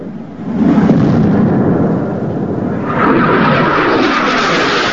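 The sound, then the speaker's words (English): Jet plane flying low overhead above a beach, a loud, broad roar that swells within the first second, grows stronger again midway and stays sustained to the end. “On the beach, the pair pause to stare up at two jet planes streaking low across the sky.”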